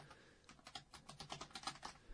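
Quiet typing on a computer keyboard as a tweet is updated, a rapid run of many soft, irregular keystroke clicks with no talk.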